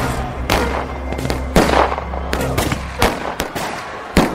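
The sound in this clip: Gunshots are fired into the air to scare off a crowd. Many sharp, loud cracks come at uneven intervals over a low, steady rumble.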